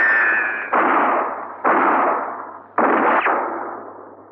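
Gunfire in a standoff with armed men holed up inside. About four sharp, loud blasts ring out at uneven intervals, each trailing off in a long, rumbling decay, with a high whining tone at the very start.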